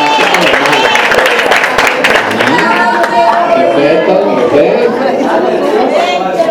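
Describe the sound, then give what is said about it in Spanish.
A church audience claps in dense, rapid bursts during a Christian ethics class, the applause running steadily alongside loud overlapping chatter and voices. “¿A dónde está eso? Un aplauso.”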